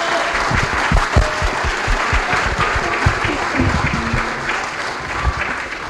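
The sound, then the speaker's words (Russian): Audience applause, dense and steady clapping from many hands that holds at an even, loud level throughout with no break. “Давайте поаплодируем Валентину Ивановичу за это.”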